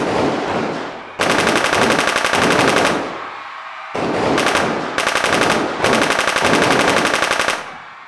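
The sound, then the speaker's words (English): Automatic gunfire returning fire: several long, loud bursts of rapid, dense shots with short, quieter lulls between them. “Looks like God sent in another shooter. This fucker definitely uses the loo. Now, return fire like you learned in art class.”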